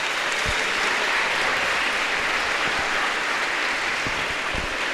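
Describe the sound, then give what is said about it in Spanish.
A group applauds after a balloon experiment is shown to a class. The clapping is dense, even and continuous for the whole stretch. “Démosle un aplauso a los que lo hicieron.”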